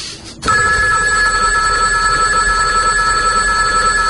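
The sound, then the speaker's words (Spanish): A telephone bell rings loudly and continuously, a steady, bright, unbroken ring that starts abruptly after a short quiet moment and holds at full volume to the end. “Qué fuerte suena este teléfono.”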